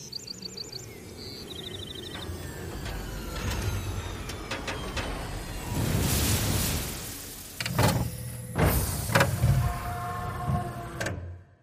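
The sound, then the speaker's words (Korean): A transport vehicle lands outside and its door opens: a mechanical whir swells and fades, followed by sliding, clunking door sounds. Bird chirps and a low steady ambience run underneath. “밖에서 이동장치가 착륙하고 문이 열리는 소리가 났다.”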